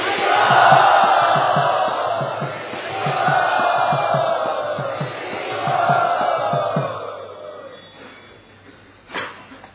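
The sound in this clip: An audience loudly cheering to welcome a speaker, rising in three swelling waves of shouts over rhythmic low pulses, then fading away, with one sharp sound near the end.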